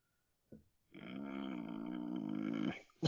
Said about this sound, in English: Are you just waking up right now? I can't tell. No, that's my general groan of displeasure.